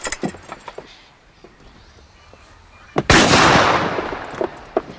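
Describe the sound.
A single loud rifle shot is fired as a signal in reply to one from shore, on a sailing ship near port. A few faint clicks and handling noises come before the blast, which leaves a long, rumbling decay.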